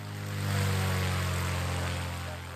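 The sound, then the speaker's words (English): A 1950 de Havilland Chipmunk propeller plane runs its engine with a dense, buzzing drone that swells within the first half-second, holds steady and loud, then eases slightly toward the end. “David Cook is preparing to take to the skies in his vintage de Havilland Chipmunk aircraft. The aeroplane is 1950 vintage, so it's 73 years old.”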